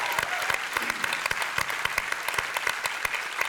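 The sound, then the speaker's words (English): Congregation applause welcoming people into a Lake Hills Church service at Brazos Hall: dense, steady clapping from many hands that holds at an even level for the whole stretch. “I want us to put our hands together and give a crazy welcome into our service, Lake Hills Church, downtown at Brazos Hall.”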